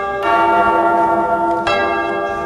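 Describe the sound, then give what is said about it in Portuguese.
A church bell rung by a sacristan, struck twice, its rich tone ringing on and sustaining between the loud strikes. “Atenção, toca o sino, seu sacristão!”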